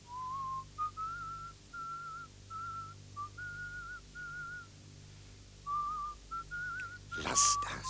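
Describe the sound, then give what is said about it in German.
A person softly whistles a melody, a steady line of clear, pure notes that rise and fall in short phrases. The whistling is faint and unaccompanied, and a brief rustling noise sounds near the end. “Dann, als sie aufhört, pfeife ich die Melodie weiter, leise, fast unhörbar.”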